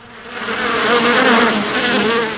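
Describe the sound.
Honeybees in a hive make a dense, continuous buzzing drone of many wings, loud and steady throughout, swelling slightly in the middle.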